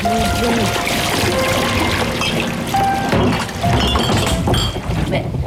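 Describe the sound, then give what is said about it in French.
Liquid pours through a funnel tube into a bottle, a continuous, dense gush with trickling and faint clinking textures that holds steady throughout. “Le tuyau tonnoir est plein jusqu'en haut. Si il se vide, ça remplit la bouteille.”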